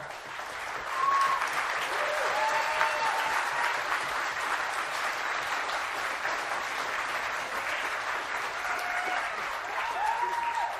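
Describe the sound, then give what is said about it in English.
Audience applause at a live ticketed show, a thick, sustained wash of many hands clapping that swells early and then holds at a steady, fairly loud level for about eleven seconds. “thank you for the unexpected applause.”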